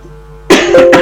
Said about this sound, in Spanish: Perdón, tengo tos, una tos molesta.